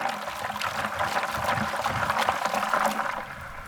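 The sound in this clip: Water sloshes and trickles as mussels are rinsed in a bucket, a steady, unbroken splashing wash at moderate level with no talk.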